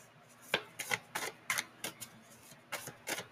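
Cards being pulled from a deck during a card reading, heard as a quiet series of many sharp, crisp snaps and taps in an uneven rhythm, each brief and papery, separated by short pauses of near silence.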